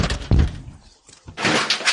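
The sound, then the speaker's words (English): Deputies pounding on the door of a barricaded man: one heavy, booming thud, then a pause and a longer burst of rough, noisy banging. “Why are they knocking? They're still knocking.”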